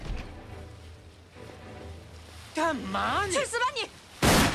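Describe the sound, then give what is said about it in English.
A single sharp gunshot in an action film scene set in Hong Kong: a brief, loud crack near the end, following a man's raised, shouting voice over a quiet, low background. “Huli shoots Ricky.”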